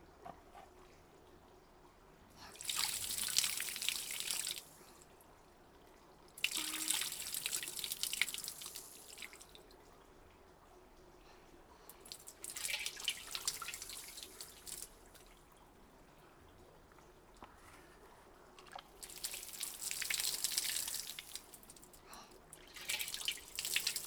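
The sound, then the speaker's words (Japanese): Water running for rinsing comes as several hissing bursts of spray, each a few seconds long, separated by quiet pauses with faint drips. “それでは流していきますね。”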